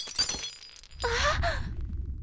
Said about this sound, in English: dropped the container and the glass smashed against the floor.